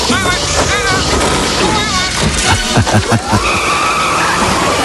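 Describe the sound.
Tires skid loudly as a robot-driven taxi pulls away fast, with a continuous, dense roar of car noise and voices mixed in.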